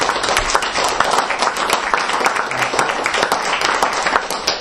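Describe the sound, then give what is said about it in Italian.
Audience applause for a speaker at a talk on the history of the Italian flag: a steady, dense wash of many hands clapping, loud and unbroken throughout, with no talk. “io faccio l'applauso a Mauro”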